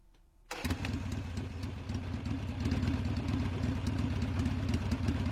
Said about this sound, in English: It sounds like a Harley revving and taking off.